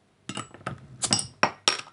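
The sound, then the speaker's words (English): A bottle of Siren Craft Brew Liquid Mistress red IPA is cracked open, with a series of sharp glassy clinks and knocks, each quickly decaying, one after another. “Siren Craft Brew, called Liquid Mistress, which is a red. They describe it as a red IPA, and it is amazing. So I'm just going to crack it open.”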